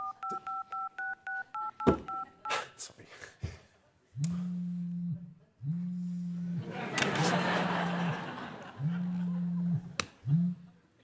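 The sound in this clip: Touch-tone keypad beeps as a telephone number is dialed: a quick run of short, even electronic tones, followed by other, longer low sounds.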